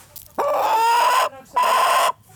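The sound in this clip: Hens squawking as they are chased and herded into their pen on a snowy farm: two long, loud, harmonic calls, the first lasting nearly a second, the second slightly shorter, with a brief pause between them.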